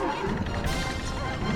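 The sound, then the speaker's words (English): Crushing impact from a video game as three small red creatures are flattened, a dense, loud burst of game noise that runs unbroken through the whole moment. “Oh, three red Pikmin got crushed once again due to user error.”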